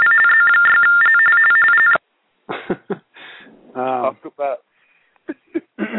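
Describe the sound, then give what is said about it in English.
Electronic alert tone for a fire call, sounded to a firefighter: two steady pitches alternate for about two seconds, then cut off abruptly. Talk follows in short bursts. “I believe Jerry Palmer just got a fireman call.”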